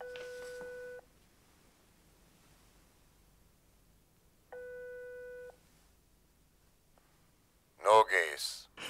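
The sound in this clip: A telephone call is placed late at night. Two long, steady ringback tones are separated by a quiet pause, and then a voice picks up and speaks at the end.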